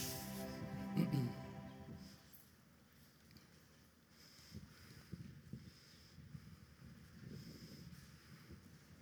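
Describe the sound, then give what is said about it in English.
Outdoor wind gusts against the microphone in a low, rumbling roar that surges several times and then settles into a steadier wash of buffeting noise. “So you may be seated in His presence in this wind. And I think the wind just blew away my notes on an electronic iPad.”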